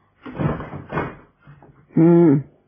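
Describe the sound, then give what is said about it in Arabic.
A door in a house is pulled shut. A few soft bumps and shuffles come first, followed by a short, loud, creaking, tonal closing sound. “اقفل الباب وراك كويس عشان عفاريت جهنم اللي مالين البيت دول.”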